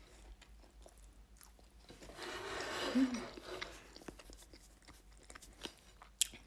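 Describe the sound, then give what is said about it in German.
Chewing a bite of sushi filled with tuna, beans and plenty of rice: soft, moist crunching and squelching in a few irregular bursts, loudest midway, with faint scattered clicks around it. “Aber ist eigentlich noch lecker, aber normale Sushi ist schon besser. Gleich noch mal einen Biss nehmen.”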